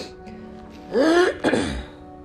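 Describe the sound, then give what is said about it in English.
A harsh throat clearing from phlegm in two quick, rasping pushes, heard alone without talk. “I have like this phlegmy in my throat.”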